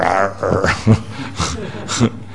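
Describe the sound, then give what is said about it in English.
A voice imitates a chained dog growling in a few rough, snarling bursts. “And until you chain the dog up so he can't move, he's going,”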